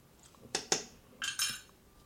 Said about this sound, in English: So I'm going to stir in the one tablespoon and then I'm going to smell what I have here in the pot.